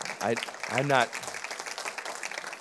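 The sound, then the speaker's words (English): Audience clapping at a graduation ceremony, a dense, even patter of applause that continues under a man's speaking voice, which stands out loudly at the start. “I'm not quite sure if you were clapping because it's time for the graduation ceremony or because it's time for me to.”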